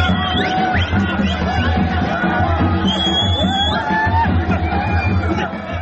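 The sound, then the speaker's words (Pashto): A large crowd of cricket fans in Kabul cheers to welcome the Afghan team home after a series win in Zimbabwe, with loud, continuous crowd noise, whoops and rising shouts. “د کرکټ ګڼ شمېر مینهوالو، کابل ښاریانو، د کرکټ بورډ مسؤلانو، د پارلمان غړو او دولتي مقاماتو د افغان لوبغاړو تود هرکلی وکړ.”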